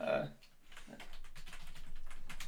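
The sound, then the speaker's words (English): Typing on a computer keyboard, a fast run of many faint, evenly spaced key taps that build through the second half. “I almost typed Creeptober.”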